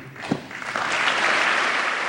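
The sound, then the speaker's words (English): Lengthy bipartisan applause during a presidential speech honoring a fallen Navy SEAL and his widow, a dense, steady wash of many hands clapping that swells in quickly and stays loud and sustained. “Karen Owens' tears inspired a rare bipartisan moment of lengthy applause”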